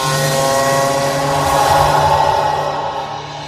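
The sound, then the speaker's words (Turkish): Car engine running with a steady, buzzing harmonic drone, moderately loud and heard alone, its sound swelling slightly toward the middle before easing off. “Otomobil.”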